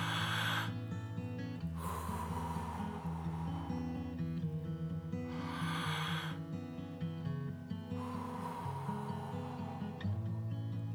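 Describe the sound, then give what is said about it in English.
Slow, deep breathing during a quiet guided prayer: a few long, airy inhales and exhales rise and fade over soft, sustained background music. “You ready? Let's breathe.”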